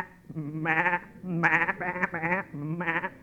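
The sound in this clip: Sheep bleat several times while being herded by a nomadic shepherd: wavering, nasal calls in quick succession with short gaps between them, moderately loud and with no talk over them.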